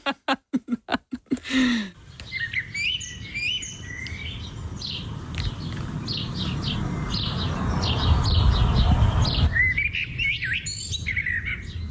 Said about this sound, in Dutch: Het geluid van een merel.